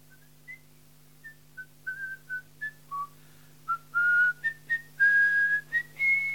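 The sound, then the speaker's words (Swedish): A man whistles a lively tune: many short, bright notes that jump up and down in pitch, with a few longer held notes toward the end. He whistles alone over a faint, steady low hum. “Han blev så uppspelt att han började vissla och sjunga.”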